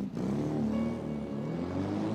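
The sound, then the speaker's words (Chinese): A sports car's engine roars steadily as it speeds off late at night. The drone is continuous and loud, and its pitch climbs slightly toward the end. “黑皮踉踉跄跄的来到驾驶室，两个女孩坐到了后面，在四月的深夜里。飞驰而去，”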